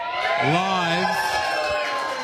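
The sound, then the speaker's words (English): Crowd cheering at the Chipping Norton Hotel during NRL finals festivities, led by a loud whooping voice that swoops up and holds before the cheer settles into a steady mass of voices. “Give us a cheer, crowd.”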